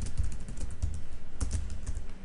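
Typing on a computer keyboard: many quick keystrokes click in a steady, uneven patter throughout, at moderate loudness, with no talking.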